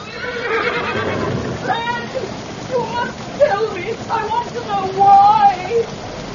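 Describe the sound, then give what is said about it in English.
A stallion carrying a jockey in a garden whinnies in a few high, wavering neighs that rise and fall over a steady hissing background. “Not 30 yards away was a stallion.”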